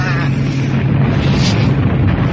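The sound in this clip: Explosions from bombs dropped by B-17 bombers form a continuous loud, low rumbling roar with no clearly separate blasts.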